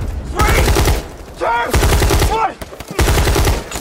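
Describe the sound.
Automatic gunfire from soldiers' weapons as a unit advances from a trench toward an enemy position, coming in three loud, rapid rattling bursts separated by short gaps, with a voice calling out between bursts.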